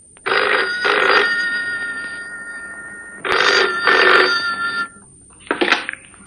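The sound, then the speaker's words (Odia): A telephone rings in a home with loud, shrill electronic double rings, two paired bursts separated by pauses, then a shorter final burst. “ମୁଁ phone ଉଠାଇଲି।”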